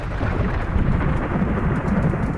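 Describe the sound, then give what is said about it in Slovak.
A thunderstorm roars: heavy, steady rain and deep rumbling thunder run loudly and continuously through the whole clip, with no voices. “Schyľuje sa k búrke. Vyčítal by som si, keby som vás teraz pustil do tohto počasia. Bojím sa búrky.”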